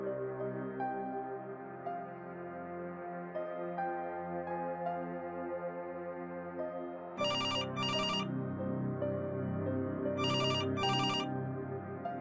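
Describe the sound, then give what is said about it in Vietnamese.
Telephone ringtone sounding in short double bursts, two paired rings a few seconds apart, cutting in over a steady sustained tonal background that runs throughout. “Ông Ninh tỉnh giấc bởi tiếng chuông điện thoại reo liên hồi”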